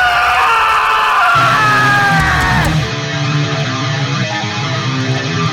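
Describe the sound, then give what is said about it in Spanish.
A shrill, strained screech rings out loud over dense, noisy rock music at the start of a segment intro. Its harmonics slide downward before it breaks off near three seconds, leaving the distorted band playing on. “No me extraña el chillido este que acompaña a la cabecera del Rincón Oscuro, porque te van a temblar los tímpanos.”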